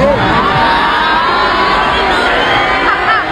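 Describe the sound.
A concert audience boos a singer who mocked Mexicans already knocked out of competition. A dense, loud wall of shouting and jeering voices continues without a break, with no single voice standing out.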